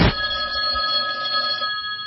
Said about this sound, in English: First, that phone over there is going to ring.